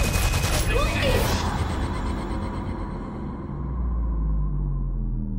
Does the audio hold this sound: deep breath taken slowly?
no